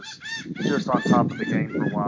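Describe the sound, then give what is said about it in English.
A seagull calls at a horse racetrack, with several short, nasal squawks arching high in pitch. A voice talks over the calls throughout. “as we hear a seagull in the background of Granada.”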